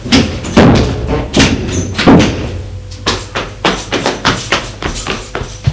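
A door slamming shut amid hurried movement: many heavy thuds and bangs in an irregular rhythm, loud and punchy, with a few slower blows at first and then a quicker run of knocks.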